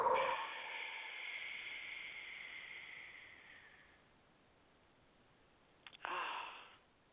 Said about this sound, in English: Okay, take a deep breath. And push it all out. Take another deep breath. And push it all out.